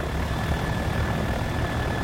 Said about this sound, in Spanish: Ben se sube a un avión y se va a El Salvador